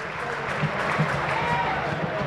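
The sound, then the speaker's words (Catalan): Crowd applause at a Girona football match, a steady, broad wash of clapping and crowd noise that holds evenly from start to finish. “Tot i això, el públic aplaudeix perquè està content amb el seu equip.”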